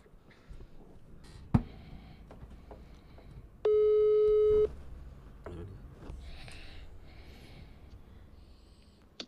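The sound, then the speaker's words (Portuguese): A telephone ringback tone sounds as a call is placed: one steady, mid-pitched electronic tone lasting about a second, set among faint, scattered background noises. “Vou ligar pro João Paulo”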